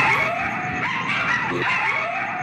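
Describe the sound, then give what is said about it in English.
Coyotes howling at an abandoned construction site in West Hollywood: a continuous chorus of high, wavering howls and yips that overlap and rise and fall throughout. “It's the howl of coyotes who have set up residence in this abandoned construction project in West Hollywood”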